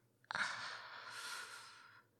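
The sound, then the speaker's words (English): A sharp indrawn breath: a sudden airy gasp that starts abruptly and stretches into a soft, breathy hiss lasting almost two seconds, faint and alone. “That indrawn breath was kind of sexy.”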